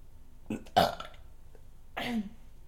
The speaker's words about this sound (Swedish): Varför rapar du så mycket?